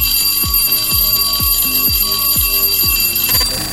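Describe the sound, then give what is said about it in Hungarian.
A school bell rings in seven evenly spaced strikes, each a bright metallic hit over a sustained high ringing tone. “Jól hallottad, ez a csengő hang volt a jeladása jelentkezése.”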